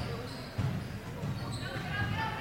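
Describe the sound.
A basketball is dribbled on a court during a women's game, with dull thumping bounces at a steady pace under a constant wash of crowd noise.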